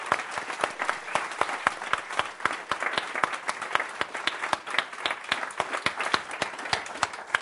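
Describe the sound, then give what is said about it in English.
Audience applause for the event staff: many hands clapping in a dense, steady burst that holds at an even loudness throughout, with no voices over it. “So how about a really big hand for the staff?”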